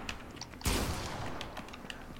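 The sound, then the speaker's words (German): Gunfire in a video game: one sharp, loud blast breaks in, and a broad noisy rumble then lingers beneath scattered faint clicks. “Ey, wer schießt? Wer schießt?”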